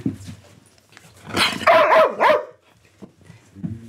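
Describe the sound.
A police service dog vocalizing a greeting on command: a short loud burst of barking that turns into a wavering, howl-like yowl rising and falling in pitch, then quiet.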